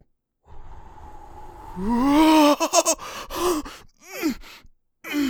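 A person takes a deep breath and lets it out as a long voiced sigh that rises in pitch, followed by a few shorter, choppy breathy sounds.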